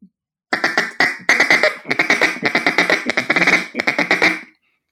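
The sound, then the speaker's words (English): Clucking notes blown on a duck call, many short, sharp quack-like bursts in rapid, choppy succession, loud and alone. “If you can just do something that's, it's like a cluck, is basically what you're doing on a duck call.”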